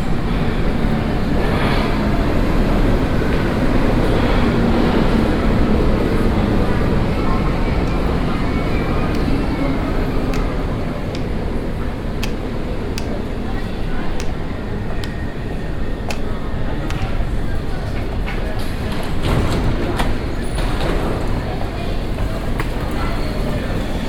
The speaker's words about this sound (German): Am Bahnsteig 2 fährt gerade die U2 Richtung Messestadt München ein. Bitte Vorsicht an der Bahnsteigkante.